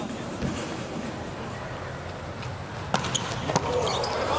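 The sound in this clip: A volleyball is bounced on the court a few times before Lagumdzija serves, producing sharp, short thuds over steady arena crowd noise.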